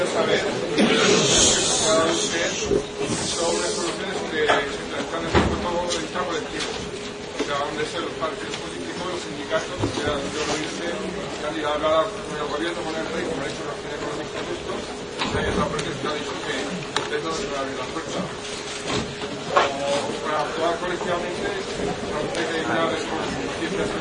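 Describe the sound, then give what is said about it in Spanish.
Crowd chatter and shuffling as people leave a hall after a talk on public pensions in Zaragoza. A steady murmur of babble runs throughout, with voices talking over it. “Perdone, es que se oye muy mal porque está saliendo toda la gente.”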